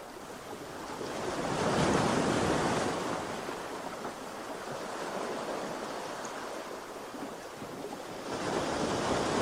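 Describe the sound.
Ocean waves surge and wash in slow, soft swells with a steady wind hiss underneath. The sound rises around the start and again near the end, with no voices.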